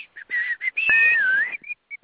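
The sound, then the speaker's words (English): A person whistles: several short, clear notes, then one long sustained tone that dips and climbs again, followed by a few brief chirps. The whistling is loud and alone, with no talk. “Number 19, whistle.”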